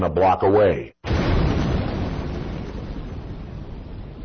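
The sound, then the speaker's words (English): A car bomb explodes less than a block away, a single sudden, loud boom that rolls into a long, slowly fading rumble, right after a short spoken line. “This is the sound of a car bomb exploding”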